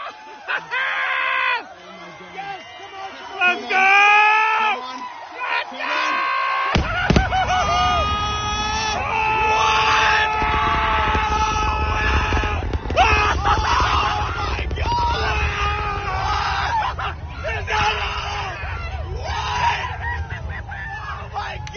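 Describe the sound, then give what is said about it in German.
People screaming and yelling wildly as a Starship rocket booster is caught by the launch tower's chopstick arms, loud and sustained, with a deep rumbling roar joining beneath the shrieks after about seven seconds. “Also man hört hier Menschen, die eben diese Landung von Starship miterleben und die vollkommen ausrasten. Also die total komplett den Verstand verlieren,”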